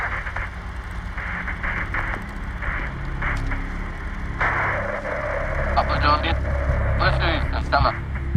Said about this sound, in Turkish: Kartal, sinyalle parazit algılıyoruz. Duyuyor musunuz?